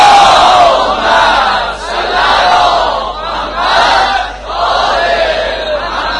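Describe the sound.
A large crowd loudly reciting salawat together at a religious gathering, a dense chorus of voices rising and falling in long swells, with brief dips between waves.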